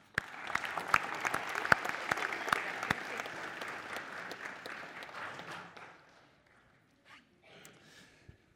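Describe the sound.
A church audience claps in welcome, dense and steady for about six seconds before quickly dying away, leaving only a few faint scattered sounds.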